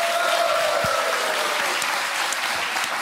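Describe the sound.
Loud studio audience applause, a dense, continuous wash of clapping that holds steady from start to finish without a break.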